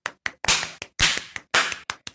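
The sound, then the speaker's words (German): Loud bursts of clapping in a regular pattern: three longer flurries alternate with single sharp claps, separated by brief silences. “Applaus. Alles andere war auch Frechheit gewesen. Applaus.”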